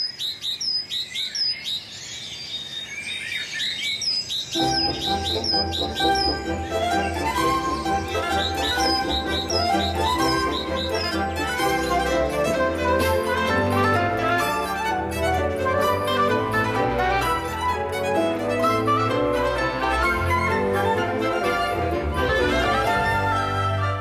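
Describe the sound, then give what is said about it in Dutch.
A dense cacophony of birdsong, many birds singing and chirping at once in a continuous, loud chorus with high twittering calls layered throughout; no one speaks. “En hier nog zo'n heerlijke cacofonie van vogelgeluiden.”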